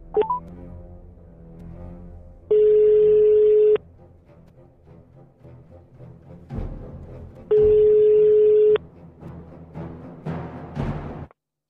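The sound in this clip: An outgoing phone call rings through: two long, steady ringing tones separated by a pause, with a low, murmuring background sound in the gaps.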